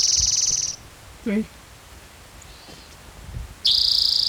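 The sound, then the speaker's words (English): A warbler sings two bursts of a high, buzzy trilled song, one at the start and one at the end, with only faint low sounds in the quiet gap between them. “National Warbler singing.”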